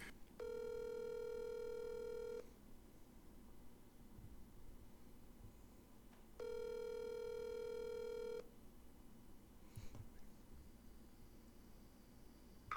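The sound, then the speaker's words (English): A telephone call ringing out toward voicemail: two long, buzzing ringback tones of about two seconds each, separated by a pause of a few seconds. The tones are faint and steady over a quiet background, with no talk. “Yeah, let's call her now.”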